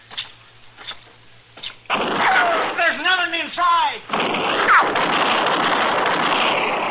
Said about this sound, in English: Don't shoot anymore. I'm hit.